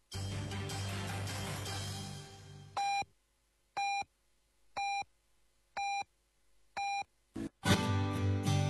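A Beijing radio station's hourly time-signal beeps: five evenly spaced, mid-pitched tones about a second apart, then a brief final tone, with broadcast sound fading out before and resuming loudly after.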